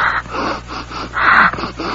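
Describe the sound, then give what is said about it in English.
A person breathes into a cupped hand to check their breath: several rough, breathy puffs in a quick, uneven rhythm, fairly loud and close. “What are you doing? I'm checking my breath.”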